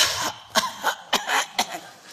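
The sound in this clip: A voice imitates a few short, dry coughs, a deliberately faked cough meant to seem ill. The bursts are brief and sharp, spaced unevenly over about two seconds, with no speech around them.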